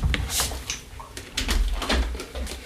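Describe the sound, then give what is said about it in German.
A window being shut: a few dull clunks and rattles of the frame and handle, irregular and moderately loud. “Sekunde, ich muss mal gerade hier ein Fenster schließen.”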